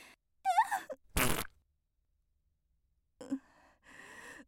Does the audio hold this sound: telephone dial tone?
no